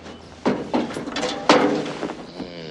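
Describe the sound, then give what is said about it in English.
Cabin door of a large machine, a vehicle stored under a tarp, being shut: a few dull clunks and rattling knocks, with one stronger thud near the middle, then a low steady background. “shuts the cabin door and sits at the wheel”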